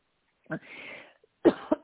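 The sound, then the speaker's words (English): Coughing from one person: a single cough, a breathy rasp, then three short coughs in quick succession. “I'm going to start coughing.”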